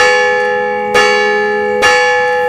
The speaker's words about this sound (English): Every night they'd go to sleep, and every morning the bell would ring,